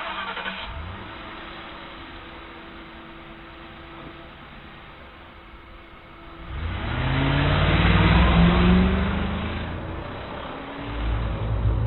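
A car engine starting on a dark road: a low, quiet hum gives way to the engine catching and revving up loudly. It then eases back, and a short rev follows near the end.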